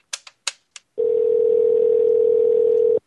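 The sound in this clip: An unanswered phone call: four quick keypad beeps, then a single loud, steady ringback tone that holds for about two seconds without a pause. No voices are heard.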